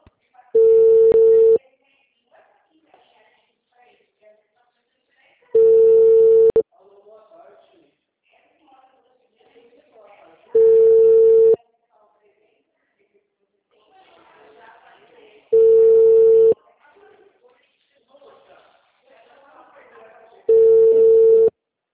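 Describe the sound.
Telephone line tones as a call is placed: five steady, mid-pitched ringback tones, each about a second long and evenly spaced, with faint voices talking in the gaps between them.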